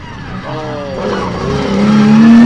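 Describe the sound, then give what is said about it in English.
A V8 car engine with triple SU carburettors runs loud and rough, its throaty note climbing steadily in pitch toward the end as the revs build. “Smells like a V8. Definitely does. Oh, it's the LJX U1. Triple SU. Yeah, oh, you can hear them going.”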